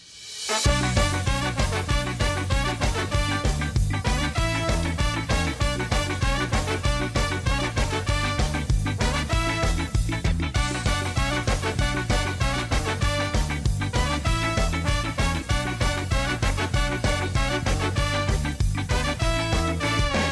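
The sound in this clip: A full-band song written for the tenth anniversary of a San Sebastián pirate collective. It kicks in after a brief silence, then holds a steady, driving beat with dense, loud instrumentation throughout.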